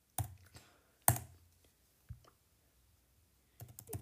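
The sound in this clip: Sparse keyboard clicks as someone types out a post: a few isolated taps spaced apart, then a quicker cluster of keystrokes at the end, quiet and with no talking.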